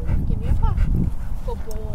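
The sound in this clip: A golden, floppy-eared dog lets out short high whimpers and yips during a trick demonstration at an outdoor gathering in a jail parking lot, heard under steady chatter from people nearby.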